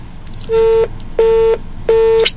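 Telephone line cutting off mid-call, giving three steady, evenly spaced beeps of equal length. Each is a buzzy mid-pitched tone with no talk over it.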